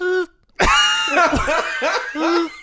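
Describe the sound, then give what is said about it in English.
A person imitates a kazoo with their mouth: a short buzzy, reedy tone, a brief pause, then a longer stretch of nasal buzzing whose pitch wavers and steps between notes. “This sounds like a kazoo. How are you making that sound with your mouth?”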